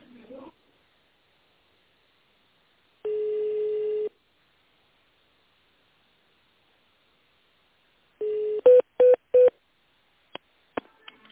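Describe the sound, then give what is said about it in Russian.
Telephone keypad tones dialing an extension number on a company's automated phone line: one long steady tone, then a quick run of several short beeps, followed by a few sharp clicks. “Наберите внутренний номер абонента или оставайтесь на линии.”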